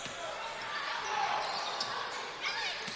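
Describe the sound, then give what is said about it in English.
Basketball dribbling on the court during a game: a few muffled bounces in a steady wash of noise, with talking throughout. “Couple of dribbles down low and a foul.”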